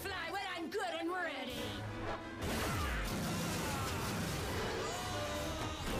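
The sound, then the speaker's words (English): A loud crash as an attack misses its target and strikes a railing during an animated superhero fight, bursting in suddenly after a quieter opening and sustaining as a dense, noisy impact to the end. “She missed. She only hit the railing.”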